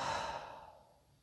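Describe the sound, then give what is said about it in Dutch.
A deep breath released through the mouth during a belly-breathing relaxation exercise, heard alone as a soft, airy sigh that fades out over about a second. “Diepe inademing naar de buik en uit door de mond.”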